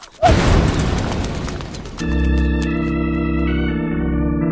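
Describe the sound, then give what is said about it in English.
Gas tanks exploding in a fire: a sudden loud boom bursts into a broad, roaring rumble, which gives way to a sustained, steady humming tone that holds to the end. “The gas tanks are on fire! Get out, Annette! Run! They might explode!”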